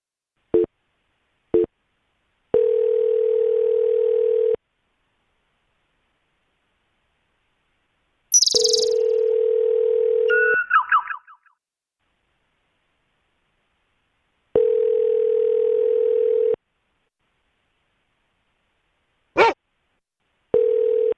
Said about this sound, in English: I don't know what this phone signal means.